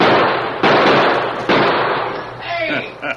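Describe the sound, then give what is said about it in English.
Gunshots fired at riders among boulders in a western drama: two loud, harsh blasts, each decaying into noise, followed by a brief voice. “Shots come close. Yeah, it's too close for comfort.”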